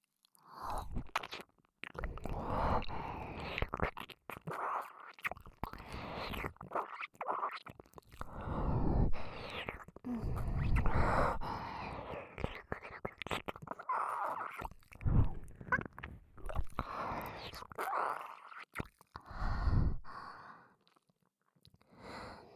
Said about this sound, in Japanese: 仮にもあなたは私の夫。耳を舐めるくらい問題ないでしょう。